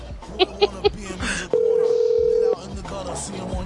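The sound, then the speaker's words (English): A telephone line sounds while calling someone back: three short beeps, then a steady, unbroken mid-pitched tone lasting about a second, with people talking around it. “I'm calling him back.”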